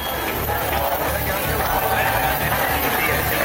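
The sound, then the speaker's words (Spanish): Crowd noise at a housing protest rally in Barcelona, a dense, steady babble of many voices and general commotion that holds evenly throughout without pause. “Este es el sonido de la concentración de esta tarde en Barcelona.”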